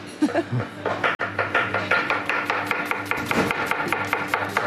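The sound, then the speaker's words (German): A knife cuts quickly through schnitzel, with many rapid, evenly spaced chopping strikes in a steady, brisk rhythm and no talking. “Hier Schnitzel, ja. Sag ich. Aber ganz schön schnell geschnitten.”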